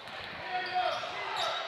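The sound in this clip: A basketball dribbled on the court during a high school boys' game between Exeter and Cedar Crest: a few quick, soft bounces over a constant background hum.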